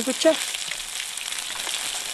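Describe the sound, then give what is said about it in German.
Food sizzles and fries in two pans at an outdoor mobile cooking station by a lake, a steady, bright hiss of hot fat that holds at an even level throughout, with a brief soft clatter at the start. “In zwei Pfannen bereitet er alles zu, was wir gefunden haben.”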